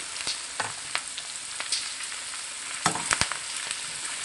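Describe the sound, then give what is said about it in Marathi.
Okra frying in a non-stick pan with turmeric over a low-to-medium flame gives a steady sizzle. Scattered crackles and a few sharp pops punctuate it, along with faint stirring clicks. “अर्धा चमचा हळद, हलकस परतून घेऊन भेंडी टाकायची आहे।”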